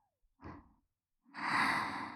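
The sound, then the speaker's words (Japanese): Deep breathing: a short, soft breath followed after a pause by a longer, louder sighing breath, alone without talk. “ほら、深呼吸、ゆ”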